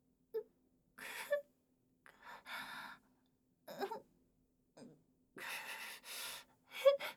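A woman's breathy gasps and sighs come as a series of short, airy inhales and exhales separated by silences, soft and uneven in rhythm.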